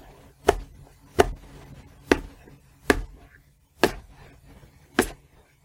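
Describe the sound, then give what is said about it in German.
Knife chopping food finely into small pieces: six sharp, evenly spaced chops on a board, fairly faint, with quiet gaps between strikes. “Und das hackst du auch in kleine Stücke. Okay. Aber auch ganz fein.”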